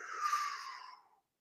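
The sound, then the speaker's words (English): One person draws in a single deep breath, a soft, airy rush that lasts about a second and tapers away into silence. No one speaks. “So put one hand there, breathe in.”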